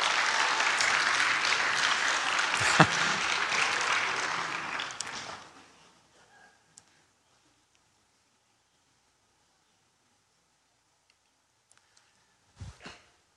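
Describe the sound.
An audience applauds and cheers a woman at a church gathering, a loud, dense burst of clapping that lasts about five seconds and then dies away into near silence. A few faint knocks follow near the end.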